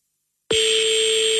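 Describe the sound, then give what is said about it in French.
An unanswered telephone call to a Paris number rings on the line: a steady mid-pitched ringing tone starts abruptly after half a second of silence and holds unbroken to the end. “je pense qu'elle va laisser sonner la coquine.”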